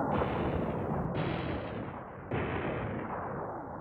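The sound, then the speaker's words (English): Cannon fire as flaming cannonballs are shot at a ship's mast: a sustained, roaring rumble with a high whistle that slides downward, breaking off and restarting twice, so three whistling sweeps in all, loud throughout. “As the cannonballs head flaming towards the mast, my life flashes before my eyes.”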